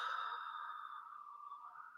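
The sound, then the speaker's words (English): A long, deep exhale during a guided breathing exercise, a faint, steady breathy whoosh that holds for about two seconds and then cuts off abruptly. “All right, nice big inhale. Yes, and exhale.”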